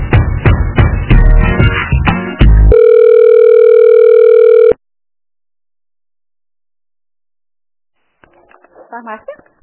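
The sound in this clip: A telephone call is transferred to a pharmacy. Loud hold music gives way to a single long, steady ringing tone on the line, then silence, and then a voice answers faintly.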